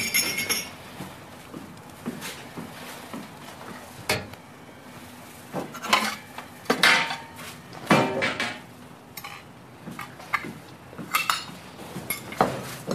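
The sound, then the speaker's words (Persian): Plates and dishes clink as they are taken out of a cabinet, with scattered light clinks, taps and knocks at an irregular pace, fairly faint. “اینجا بشقاب داری؟ بشقاب تو این کموده هست.”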